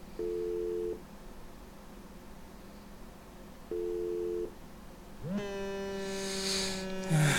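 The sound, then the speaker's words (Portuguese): Ringback tone of an outgoing telephone call: two steady, faint electronic rings separated by a long pause, then a drawn-out voice rising in pitch. “Deixa eu ligar pro mano meu.”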